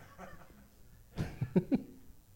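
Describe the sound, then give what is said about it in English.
An audience member sneezes: a sudden sharp burst, then a few short, quick vocal bursts close together, all over a quiet background. “Bless you. Sneezing audience member.”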